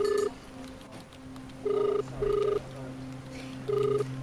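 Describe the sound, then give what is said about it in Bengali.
Telephone ringing on unanswered during a call placed from an office canteen corridor: bursts of a steady electronic ring tone, a pair close together followed by another, separated by quiet gaps over faint background hum. “ফোনটা বেজে বেজে বন্ধ হয়ে গেল, ধরল না সিদ্ধার্থ”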